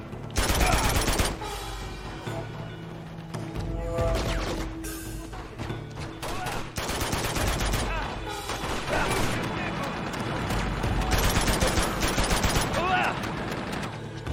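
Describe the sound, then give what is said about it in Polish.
Rifle gunfire: a dense, loud volley of rapid shots at the start, then continuous crackling bursts mixed with heavy thuds that keep up throughout. “Jakiś karabin tam gdzieś mają.”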